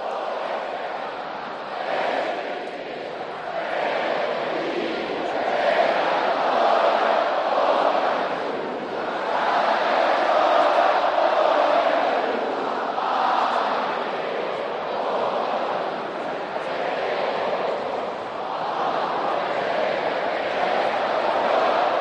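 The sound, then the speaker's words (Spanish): A stadium crowd sings Pucela's club anthem a cappella, a massed, blurred roar of voices without instruments that swells and sustains at a loud level across about twenty seconds. “ahora es cuando el público va a acoger la melodía y va a sonar a capela el himno”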